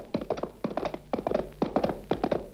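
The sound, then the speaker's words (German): Galloping hoofbeats of horses ridden hard, quick clusters of thudding strikes repeating in a steady, driving rhythm throughout. “Sie reiten wie der Teufel immer.”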